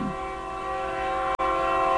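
A train horn blows a steady, sustained chord that holds unbroken for the whole stretch, with only a momentary dropout near the end.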